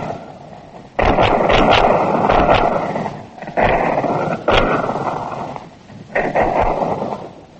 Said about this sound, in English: But guns began.